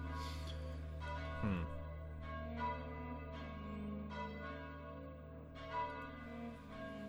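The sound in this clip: Church bells ring at dusk in a town, with a run of several strikes whose sustained metallic tones overlap and hum on between hits, steady and moderately loud throughout.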